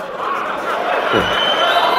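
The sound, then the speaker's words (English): Crowd cheering at Elon Musk's unveiling of the Tesla Semi all-electric long-haul truck, a dense, steady roar of many voices that holds at a constant loud level throughout. “Elon Musk introduces breakthrough all-electric long-haul semi-truck. And the crowd goes wild.”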